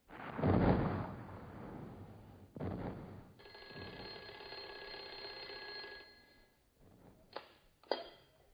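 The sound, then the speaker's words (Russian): A telephone rings at a wartime front-line post: one steady, buzzing ring lasting a couple of seconds, with loud noisy bursts and thumps before and after it. “Капитана Енакиева к телефону.”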